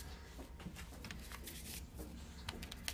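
Playing cards being shuffled and drawn for a card reading: a continuous papery rustle with soft flicks and a few sharper snaps scattered throughout, steady in loudness, with no talking.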